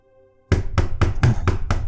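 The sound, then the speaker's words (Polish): Knocking on a door downstairs: six firm, evenly spaced raps after a near-silent start, loud and hollow, with no voices. “Pukanie na dole.”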